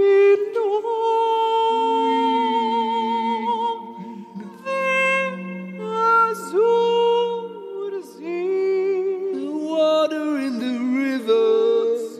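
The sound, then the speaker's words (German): A countertenor opera singer in a very high, soprano-like register sustains long, bright notes with wavering vibrato. The singing comes in flowing phrases with short breaths between them, and there is no accompaniment or talk. “der andere ein Opernsänger und zwar ein Sopranist, also ein Countertenor, der noch höher singt, der wirklich in der Tonlage singt wie früher die Kastraten und das klingt so.”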